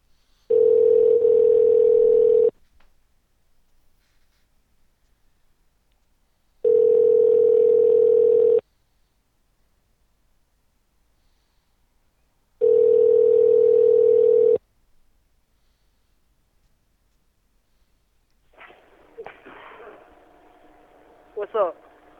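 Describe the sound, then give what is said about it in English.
A phone call to a Waffle House restaurant rings out as three long, steady ringback tones of about two seconds each with quiet gaps between them, then a voice answers near the end. “They answered. That was Waffle House. They answered their phone.”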